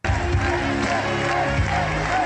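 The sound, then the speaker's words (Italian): Crowd applause and chanting fill a sports hall at Alcalá de Henares, near Madrid, at the closing rally of Pedro Sánchez's Socialist election campaign. The roar is steady and loud throughout, with rhythmic chanted voices running through it. “Bandiere rosse, applausi e i cori presidente, presidente.”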